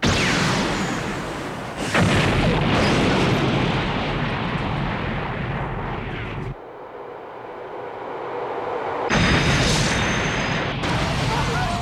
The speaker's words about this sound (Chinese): 同时在多个地点发生了爆炸，似乎是事先做好了计划定时引爆。